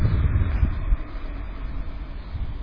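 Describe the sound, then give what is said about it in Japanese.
A traffic safety guidance car drives past outdoors, a low, broad rumble that swells in the first second and then settles into a steady drone, with wind buffeting the microphone throughout. “あれ交通安全指導車っていうやつがもう一回走ってきましたね。あれさっきの車と同じだな。”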